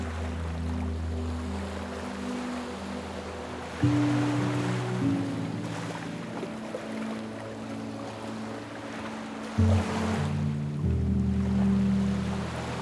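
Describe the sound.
Ocean waves wash onto a beach in a light breeze, heard as a soft, continuous hiss with gentle swells. Low, sustained droning tones run underneath and change pitch twice.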